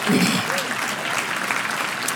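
Applause from a church audience on a Sunday morning, a dense, steady clatter of many hands clapping throughout, fairly loud and even.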